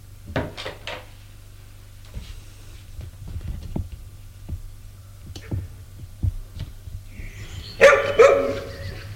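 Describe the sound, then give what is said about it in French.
Barking from two large dogs standing beside an old woman: a few sharp barks at the start, then a louder, harsher burst near the end, over a steady low hum. “Deux énormes chiens aboient.”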